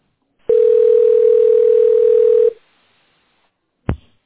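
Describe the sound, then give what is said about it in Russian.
A telephone dial tone holds one steady, low, humming pitch for about two seconds while a number is about to be dialed, then cuts off. After a short silence comes a single brief click. “Хорошо, набираю номер.”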